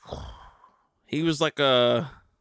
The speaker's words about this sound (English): Man, I have some real heavy breathing here.